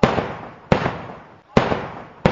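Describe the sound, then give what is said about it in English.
Gunshots fired by police at protesting university students at UJ's Banting Road campus: four sharp, loud cracks spaced under a second apart, each trailing off in a quick decaying tail. “Why are you shooting us? Explain yourself now!”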